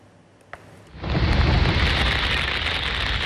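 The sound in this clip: Heavy rain shower pouring down on the city of Istanbul. A faint hush gives way after about a second to a loud, dense, steady roar of rainfall that continues without break, with one small pop just before the downpour swells.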